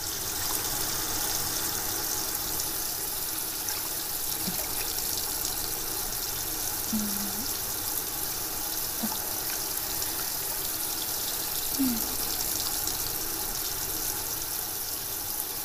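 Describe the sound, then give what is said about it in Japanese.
Warm water rinses conditioner out of hair, a continuous soft hiss of running water with a few faint, brief sounds on top. “先ほどのコンディショナーも一緒に流しますね。お湯が入らないようにお耳を閉じます。”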